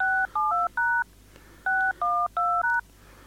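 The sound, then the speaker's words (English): Automated telephone dialing tones: crisp touch-tone beeps in two quick bursts of about four each, evenly spaced, each beep a clean dual-pitched tone over a faint low hum. “And this is all automated dialing stuff that I'm doing.”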